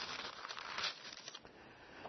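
Soft, crinkly rustling of Bible pages being turned, a quiet flurry that swells briefly in the middle before fading.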